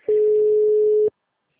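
A single steady beep of a telephone ringback tone on an outgoing call, held for about one second at an even mid pitch, then silence.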